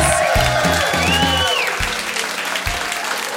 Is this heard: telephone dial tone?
no